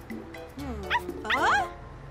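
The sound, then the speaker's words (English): A lone puppy whimpers and yips in high, whiny cries that bend up and down in pitch, with a couple of short sharp yaps in quick succession. “It's a puppy. Why are you alone?”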